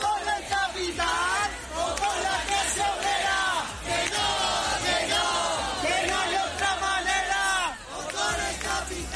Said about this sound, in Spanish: Las acampadas se mantienen activas y así es como se escuchaba el ambiente durante las últimas horas.